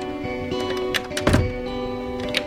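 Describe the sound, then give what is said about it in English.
A cabin door is locked with one solid thunk midway, set against a sustained tonal background with a few fainter knocks around it. “locks the door on both of them”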